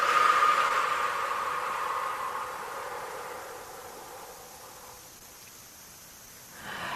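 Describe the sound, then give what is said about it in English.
A deep breath in and a full exhale during a guided breathing exercise: a long, airy rush of breath that slowly fades over several seconds, with a fresh breath starting just before the end and no talking. “Inhale deeply. And exhale fully.”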